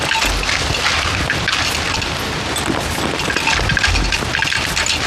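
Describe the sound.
Gunfire mixed with heavy booms during a wartime firefight as troops cover a retreat, forming a dense, continuous roar of shots and blasts that stays loud throughout.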